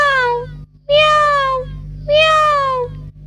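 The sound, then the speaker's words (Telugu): A person imitates a cat's meow with three loud, drawn-out, nasal meows, each sliding slightly downward in pitch, separated by short pauses. “కోతిపిల్ల పిల్లిలా అరుస్తుందేమిటి?”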